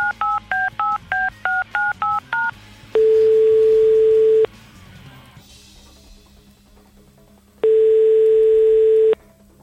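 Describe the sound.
A telephone call is being placed by a radio host: a quick run of touch-tone key beeps is followed by two long, steady ringing tones separated by a pause, with no voices.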